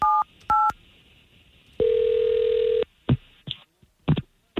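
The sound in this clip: A telephone call is placed: two quick dialing beeps, then one sustained steady tone lasting about a second, followed by several sharp clicks and faint line noises, with no talking.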